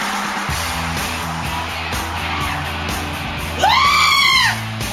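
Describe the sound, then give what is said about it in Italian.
A single scream of terror cuts in near the end, a loud, high wavering cry lasting under a second that rises and then falls in pitch. “Urlo di terrore”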